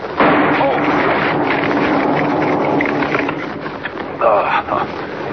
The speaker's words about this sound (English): Wired that tree to a blasting charge. Blew up right in my face. Anybody else would have been shattered to bits. Good thing dynamite can't hurt me.